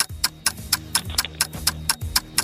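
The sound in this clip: A clock ticks steadily through a ten-second quiz countdown, with many sharp, bright clicks at a brisk, even rhythm over a low pulsing tone.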